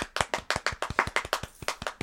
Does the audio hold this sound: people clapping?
yes